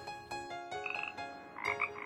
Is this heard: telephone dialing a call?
no